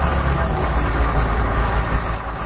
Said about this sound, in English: Several dozen trucks move through Fallujah, picking up rubble and clearing roads.